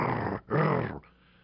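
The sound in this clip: A dog growls in two low, rough rumbling bursts separated by a brief pause, the second slightly stronger, then trails off into quiet.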